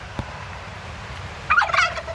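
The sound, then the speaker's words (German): Turkeys gobble in one loud, warbling, rattling burst that begins after a quiet stretch and lasts about half a second before fading. “Naja, aber alleine ist man hier nie. Und, hier gibt es ein paar Truthähne.”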